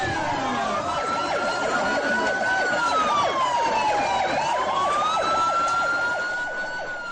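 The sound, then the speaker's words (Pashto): An ambulance siren wails without a break as ambulances reach the site of a bomb blast near the Iranian ambassador's residence in Sanaa. Its tone climbs slowly, dips, then rises again. “امبولانسونه د پیښه ځای ته رسیدلي.”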